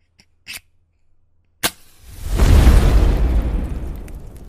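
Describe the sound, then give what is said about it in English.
A fire being lit: a couple of faint clicks and a sharp snap, then a loud rushing whoosh of flame that swells and holds to the end. “But before I keep talking and we do more of the podcast, I have to light the fire.”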